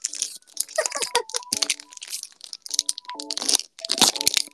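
Bites of rock candy, a hard lump of sugar, crunch loudly and crisply in many irregular bursts. The cracks are split by short pauses and come alone, without talk.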